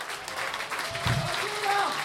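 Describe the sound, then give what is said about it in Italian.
Audience applause at a concert after the vocal group's solo singers are introduced, a short, steady patter of clapping with a voice briefly heard over it. “vi chiedo l'applauso per le voci soliste del nostro gruppo”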